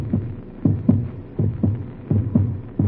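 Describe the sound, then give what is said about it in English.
A loud heartbeat pounding like a drum, a few low, muffled double thumps in a steady lub-dub rhythm, each pair separated by a brief pause. “that's my heart beating like a drum in my ears. It's loud, so loud.”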